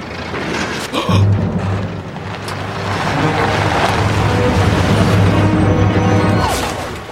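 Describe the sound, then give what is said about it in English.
A circus truck arrives, its engine giving a steady, fairly loud low rumble with a brief thud near the start. The drone holds for several seconds before easing off at the end. “He sees the glaring headlights of a truck.”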